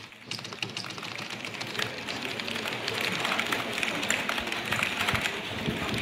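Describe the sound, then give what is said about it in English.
A typist enters a string of letters on a keyboard, producing a rapid, continuous stream of many light key clicks at a steady pace. “is a typist inputting a string of sort of nonsense letters, which prompts a little tiny box to pop up with five or so options, which they then select from with one final keystroke.”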